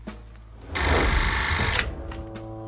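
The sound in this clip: A telephone rings in one sustained, bright electronic burst of about a second, steady and fairly loud. Quieter tonal sounds come before and after it.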